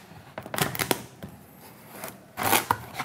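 A knife cuts a Hokkaido pumpkin in half with a few crisp cracking crunches and scrapes, one burst early and a louder one near the end, and quieter knocks between them.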